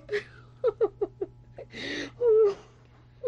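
A woman cries, whimpering in short broken sobs and gasps, then lets out a long, wavering wail, with a final sob at the end.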